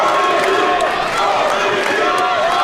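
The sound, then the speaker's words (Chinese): Loud, unbroken roar of a crowd cheering for an athlete at a sports venue during a contest between competitors from two countries, a dense, steady wall of voices lasting throughout. “现场给他的加油声也是不绝于耳啊！”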